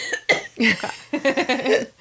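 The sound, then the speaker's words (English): A person coughs in a few harsh, throaty bursts of uneven length. Some bursts are partly voiced, and they come closer together in the second half. “I'm like, I have to cough.”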